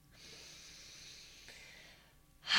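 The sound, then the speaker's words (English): A deep, deliberate breath drawn as a grounding exercise, a steady airy hiss lasting about two seconds, then a sharper, louder rush of breath at the very end. “please join me in taking a big breath”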